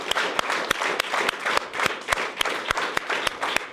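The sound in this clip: A studio audience at a panel show on farming gives a standing ovation, clapping loud and continuous in a steady rhythmic beat, many hands striking together in unison with no voices above it.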